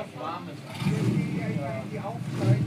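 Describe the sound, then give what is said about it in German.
The engine of a 1986 replica of a Porsche 550 Spyder runs with a steady low rumble that swells slightly toward the end, partly masked by people talking over it. “Jetzt kommt hier wieder ein Porsche. So, und was für ein Porsche ist denn das genau? Es sollte ein Porsche 55 Spyder sein, aber ehrlich gesagt, es ist eine Replika aus dem Jahr 86.”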